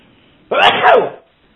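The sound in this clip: One loud sneeze bursts out sharply and ends in a breathy tail lasting under a second, alone against near silence.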